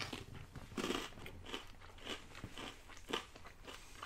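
Crunchy food is bitten and chewed right against the microphone, giving many crisp, crackling crunches in an uneven rhythm. The sound is fairly faint, with no talking over it.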